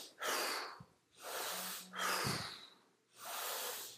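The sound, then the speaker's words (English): Strong, deep hyperventilation-style breaths, air forcefully drawn in and blown out, come as four loud, airy rushes in a steady rhythm with short pauses between them. “so notice I'm taking a really strong in breath and I'm really blowing it out. I'm getting rid of that CO2 so that I make room for oxygen, and I'm doing a kind of hyperventilation style.”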